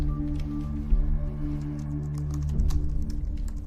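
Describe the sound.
Typing on a laptop keyboard: many light, irregular key clicks patter continuously over a steady low electrical hum, with no voices.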